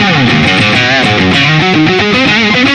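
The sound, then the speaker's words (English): Electric guitar with a distortion effect, played loud and continuous, with thick, buzzing chords and notes shifting steadily throughout. “So I really liked that sound, but when you put on the distortion,”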